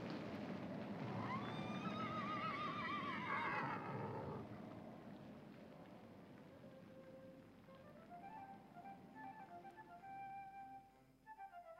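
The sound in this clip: Horses from a string of horses on the road neigh, opening with a long, wavering whinny followed by fainter, shorter calls, all quiet and without any talk.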